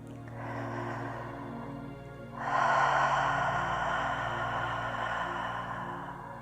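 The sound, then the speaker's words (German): A deep, long exhalation during a guided breathing exercise: a loud breathy rush that begins abruptly and holds steady for several seconds over a faint low hum. “Tief und vollständig und auch lang ausatmen.”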